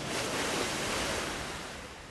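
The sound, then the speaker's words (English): Roar of a tidal bore, a wave about six feet high surging upstream along a river and passing under a boat: a dense, steady rushing roar that eases slightly toward the end. “And with that, the Silver Dragon, about 6 feet high in this section of the river, roars under our boat and continues upstream.”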